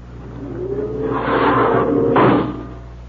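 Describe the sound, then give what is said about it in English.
Spaceship outer airlock opening, a radio drama effect: a low hum swells into a rushing, breathy hiss with a sharp surge just past the midpoint, then fades away. “Lustig, open the outer airlock.”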